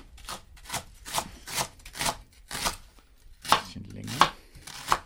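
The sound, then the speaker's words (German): Sharp knife chopping leek into medium pieces on a board, about seven crisp, evenly spaced cuts with a brief scraping pause near the end, fairly loud and with no talking. “den Porree mal so in mittelgroße Stücke. Man kann die Schärfe des Messers richtig hören, stellt Andi Knoll fest.”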